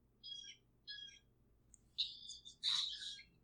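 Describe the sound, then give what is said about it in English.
Bird calls ring out in a short series of high, chirping bursts, the later ones louder and fuller, over a faint low hum with no talking. “I hear a loud bird in the background of your recording”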